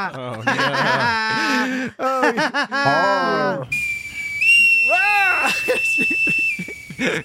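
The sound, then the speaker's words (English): A bosun's whistle gives one long, steady, high-pitched tone lasting about three seconds, with talking and laughter heard over it. “That's a bosun's bad whistle. Bosun. That's a bosun's whistle.”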